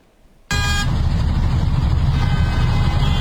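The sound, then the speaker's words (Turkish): A car drifting on a ring road in Ankara, heard as loud, steady engine and road roar that starts abruptly. A short honking horn sounds at the onset. “Ankara Kuzey Çevre Yolu'nda bir sürücü aracının plakasını kapatarak drift attı.”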